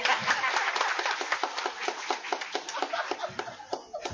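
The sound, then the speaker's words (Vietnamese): Audience clapping at a Buddhist talk: a dense patter of many hands that thins out toward the end into scattered, separate claps. “Phải không quý vị? Vỗ tay đi.”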